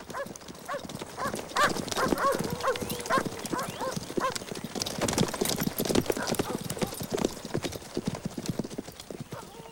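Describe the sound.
Several riders' horses leave town at a trot, their hooves clip-clopping in a dense, uneven stream of many sharp knocks that stays at a steady, moderate loudness.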